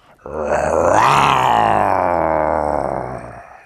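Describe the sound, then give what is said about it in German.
A person imitates a jaguar with one long, loud, throaty growling roar that swells quickly and holds steady for about three seconds before fading. “das war ein Jaguar”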